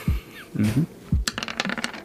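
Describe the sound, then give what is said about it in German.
Dice rattling and clattering across a table during a pen-and-paper role-playing game, a quick run of sharp little clicks and taps after a few low, muffled knocks. “Dann würfel mal auf Konzentration.”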